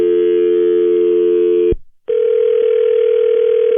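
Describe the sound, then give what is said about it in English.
Telephone tones as a number is dialed back: a loud steady tone, a brief break, then another steady tone at a slightly higher pitch holding to the end, with no talk. “Why are you dialing my number back”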